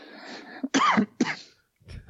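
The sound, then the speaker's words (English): Harsh coughing with a strained, choking quality: two loud, rough bursts after a brief catch of breath, then a quieter, breathy rasp. “Made me choke there for a minute. Breathing is difficult sometimes.”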